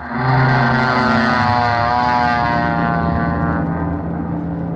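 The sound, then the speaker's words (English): Small propeller airplane taking off with an instructor aboard, its engine a loud, steady droning roar with strong buzzing harmonics that holds for the whole stretch, no voices. “Let's see, this must be the plane. The instructor sitting in the front seat ready to go. I'll just step up here in the wing and get in the seat behind him. Okay, buddy, I'm all set. Let's take off.”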